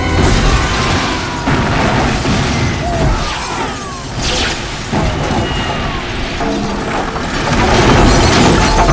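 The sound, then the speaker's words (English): A bomb explosion: a loud, sustained roar of rumbling noise with crackling debris and a few sharper bursts, holding for several seconds. “It's a bomb.”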